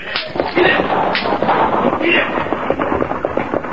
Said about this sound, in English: Right after we fire a few shots in the air. Right. Use your guns, men, and make it sound like a short battle.